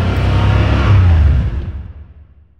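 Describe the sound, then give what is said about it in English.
A car engine revs in a loud, low roar that holds strongly at first, then fades away, leaving a quiet tail. “I mean, it is unmistakable. Nothing else sounds like this. You don't want to have the radio on. You need to be able to listen to that engine.”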